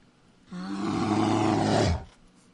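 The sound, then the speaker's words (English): A smart speaker plays a bear's roar. It is a single deep, growling roar of about a second and a half that swells in intensity and then cuts off abruptly. “Alexa, what noise does a bear make?”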